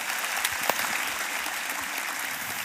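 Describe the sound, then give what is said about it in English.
Faint applause from a church audience, a soft, steady clatter of clapping with a couple of sharper claps standing out. “Why don't you put your hands together for John's original audience?”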